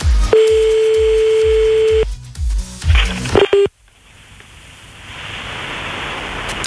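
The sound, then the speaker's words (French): Telephone dialing tones for a call: a steady beep over a rhythmic low beat, then a quick run of short keypad tones, ending in a steady hiss of an open line. “Allez, c'est parti, on y va, on appelle le premier.”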